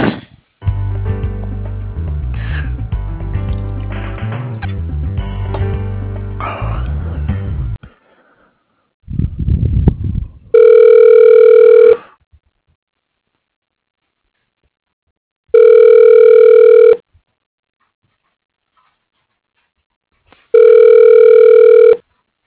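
Ringback tone on a telephone line after a call is transferred to an office extension. Three evenly spaced rings of about a second and a half each follow a few seconds of other sound, with silence between them.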